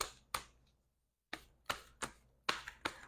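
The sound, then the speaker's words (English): Cards are drawn from a deck during a card reading: a quiet series of sharp snaps and taps, with a short silent pause before several more closely spaced clicks. “Um, one more card, clarifying card.”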